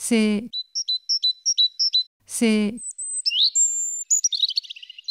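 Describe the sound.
Birds singing: a run of short, bright, high chirps and thin sustained whistles, broken by two lower, harsher harmonic calls at the start and midway.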